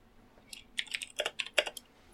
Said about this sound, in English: All right, let's type this up and pin it so we have for the record a month or two from now when it comes out.